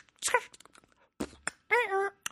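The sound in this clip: A man's voice imitates the wordless humming ad-libs of modern rap records: a few short, sliding moans and hums with pitch wavering, separated by brief silences.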